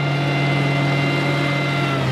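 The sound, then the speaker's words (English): Straining motor of a drilling rig at a military practice airfield on the North Carolina mainland, a loud, steady droning hum with a strong low tone that holds unbroken throughout. “Today, though, the straining motor belongs to a drilling rig rather than a fighter jet.”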